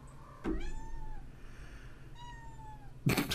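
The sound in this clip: A cat meowing twice, two faint drawn-out meows, with a sharp knock just before the first and a louder burst of noise at the end.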